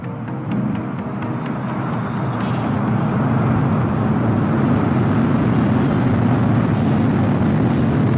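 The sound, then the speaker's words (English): Rocket engines ignite for liftoff on a launch to the International Space Station, a loud, dense roar that builds over the first seconds and then holds as a steady rumbling wall of sound. “Ignition, liftoff.”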